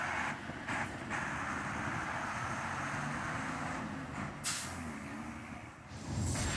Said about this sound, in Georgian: ცენტრში მიმავალ ავტობუსს პოულობ, თავდივარ და ქალაქისკენ მივემართებით.